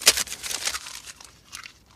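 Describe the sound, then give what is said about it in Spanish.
Paper crinkles and rustles as a sheet with a phone number written on it is pulled out. A sharp crackle opens the sound, then softer, scattered crinkling follows, with no talk over it. “Charlie saca el papel con el teléfono.”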